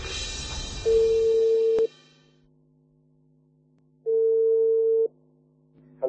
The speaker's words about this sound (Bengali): ওকে, ফোনে কানেক্ট হয়ে গিয়েছে, আমরা যাচ্ছি ফোনে।